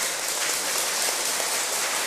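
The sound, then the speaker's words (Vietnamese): Loud, continuous applause from an audience answering a call for a long, big round: an unbroken, hiss-like wash of many clapping hands with no voices. “Xin tất cả hãy cho một tràng vỗ tay thật lớn nữa, thật dài nữa,”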